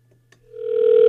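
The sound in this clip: Ringback tone of an outgoing call to a landline: a single steady electronic tone fades in after a couple of faint clicks and swells to a loud, even hum that holds to the end, with no talk over it.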